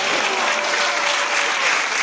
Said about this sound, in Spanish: Aplausos.